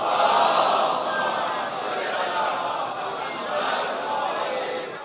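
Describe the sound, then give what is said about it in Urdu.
A crowd recites salawat aloud in unison at a religious gathering, a loud, sustained mass of voices that swells in a few gentle waves over five seconds. “سید منظر کاظمی صاحب کی توفیقات میں اضافے کے لیے باواز بلند سلوات پڑھی۔”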